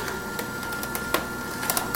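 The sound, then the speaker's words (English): A cold pressed juicer runs while pressing cilantro and parsley, giving a steady, quiet mechanical whir broken by a few sharp clicks and crackles as the produce is crushed. “Oh, it's just, it's so quiet. It's just a gorgeous machine. And there are lots of cold pressed juicers out there by other brands.”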